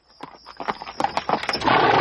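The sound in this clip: Horse hooves clatter on the stone of a courtyard, many quick, sharp knocks in an uneven patter that grows louder and denser toward the end.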